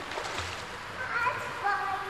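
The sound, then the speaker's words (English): Water splashes in a swimming pool, a constant hissing wash of sloshing and spray with small surges, and voices faintly audible underneath. “I like swimming in the pool. I swim a whole length. I like splashing.”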